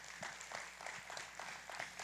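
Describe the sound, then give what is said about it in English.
Faint applause at a church service as a visiting pastor is welcomed to the front, individual claps falling in a loose, steady rhythm throughout. “Give a big hand clap to my friend.”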